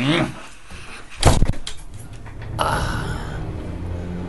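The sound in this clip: A door being opened: a sharp clunk and rattle, followed by a steady rushing hiss that continues to the end.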